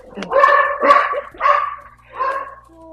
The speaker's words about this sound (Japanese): もうワンコ通過中で大変なことになっちゃう